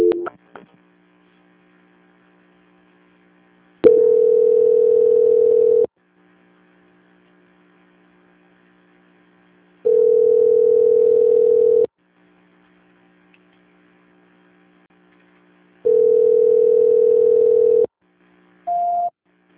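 A repeating telephone tone plays while a call is transferred: three long, steady tones separated by pauses over a constant low hum, then a brief higher beep at the end.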